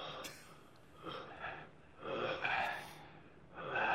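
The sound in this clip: Heavy breathing from a person: a few rough, wheezy breaths that swell and fade in waves, faint and unaccompanied by talk.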